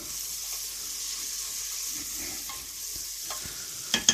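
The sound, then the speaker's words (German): A spoon stirring onions frying in a pan, with a constant sizzling hiss and a few soft scraping strokes, ending in two sharper scrapes close together. “nehmen wir uns hier ein Löffelchen und rühren das Ganze schön durch”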